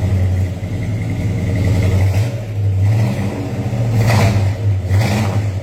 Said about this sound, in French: V8. 440 pouces cubes, 375 HP. Un petit coup de gaz.